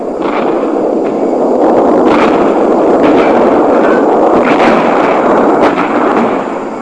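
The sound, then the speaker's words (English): Mortar strike in a video game: a dense, loud barrage of booming blasts over a sustained rumble, with a few sharper cracks standing out. No voices. “It's pretty realistic. I mean, listen, here's Mortar Strike.”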